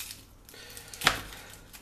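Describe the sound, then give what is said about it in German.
A knife cuts the end off a halved onion on a board, one brief sharp knock in an otherwise quiet, low background. “Dann nehmen wir uns die zweite Zwiebel vor, halbieren oben unten die Spitze abschneiden.”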